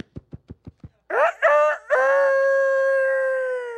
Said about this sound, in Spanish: Cantó el gallo.